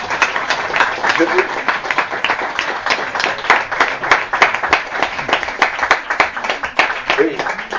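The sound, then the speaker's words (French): An audience applauding to thank a kitchen team, many hands clapping in a steady, lively stream that holds an even level throughout. “Alors, pendant qu'on en est aux applaudissements, si vous êtes d'accord, et je pense que vous le serez, je voudrais qu'on remercie l'équipe de cuisine.”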